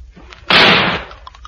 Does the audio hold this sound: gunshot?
yes